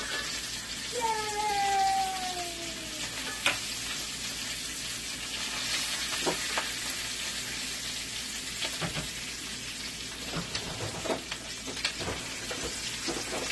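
Bacon frying in a pan while it is being flipped: a steady, fairly loud crackling sizzle with a few sharp clicks and clatters scattered through it.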